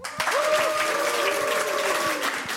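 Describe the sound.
A studio audience claps their hands in dense, steady applause. The clapping is loud and sustained throughout without a break.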